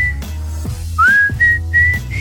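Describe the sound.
Whistling by a person, a few clear whistled notes: the first glides upward, then steady tones repeat in short phrases with brief gaps, fairly loud over a low steady background.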